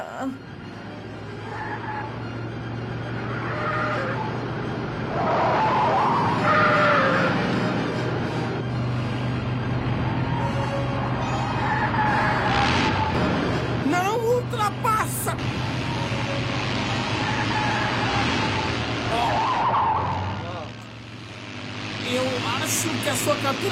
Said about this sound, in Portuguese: Caramba, nós temos o melhor carro, estamos atrás. Eu não posso ultrapassar na curva.